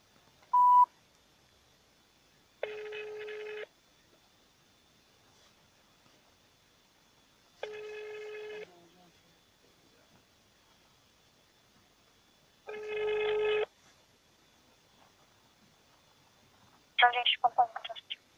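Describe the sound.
A telephone ringback tone sounds on a repeat call to a management company's secretary. A short beep comes first, then three ring bursts of about one second each, roughly five seconds apart, before a brief burst of sound at the end.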